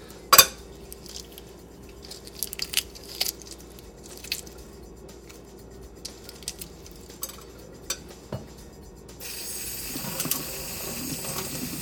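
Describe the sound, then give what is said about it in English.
Eggshell being peeled off an egg by hand: scattered faint crackles and small sharp clicks at irregular intervals, one louder snap near the start, over a quiet background hiss. “Okay, I'm moving closer here. Listen to this. I'm peeling an egg shell off the egg.”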